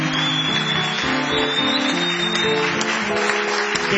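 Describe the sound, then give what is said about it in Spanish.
Enthusiastic applause from a crowd at a live show, a dense steady patter that continues throughout over music with stepping low notes. “Qué lindo el fervor del público, maestro. El fervor de toda esta gente por usted.”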